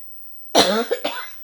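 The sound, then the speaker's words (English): A person coughs because of a tickling throat: one sharp, loud burst followed by a couple of shorter hacking bursts, all within about a second, with no talk. “my throat start to tickling, so I want to cough very much.”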